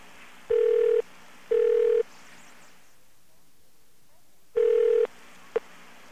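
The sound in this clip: Telephone ringback tone on a long-distance call, heard as a double ring: two half-second steady tone bursts, a pause, then another burst followed by a brief clipped one over a faint line hiss.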